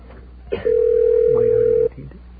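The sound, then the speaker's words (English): A telephone line tone on a call to an AT&T operator: one steady, mid-pitched beep lasting just over a second, with faint line noise around it and no talk. “I'm going to try getting the AT&T operator direct. Let's see if this works. This might actually work. It's a dialing shortcut I discovered.”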